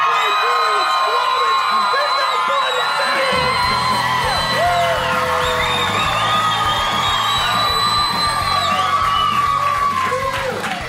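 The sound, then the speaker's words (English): Loud live audience at a show in British Columbia cheering, whooping and yelling without a break, with high whoops rising above a dense roar of voices throughout. “I think this crowd's going to be hype as fuck. Yeah, and our microphones are now ruined because of that.”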